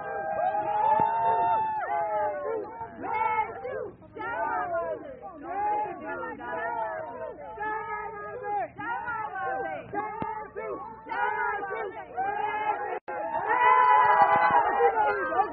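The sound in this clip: A crowd of Burmese and Americans cheers and shouts to welcome Aung San Suu Kyi arriving at the White House. Many overlapping voices call out loudly and continuously, with a brief dip near the end before the cheering swells again.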